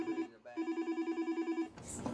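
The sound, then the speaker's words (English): An office telephone rings insistently amid busy event preparations, a trilling electronic ring in rapid, even pulses: a short burst, a brief pause, then a longer steady run of pulses before being cut off by a rush of noise. “And her phone will not stop ringing.”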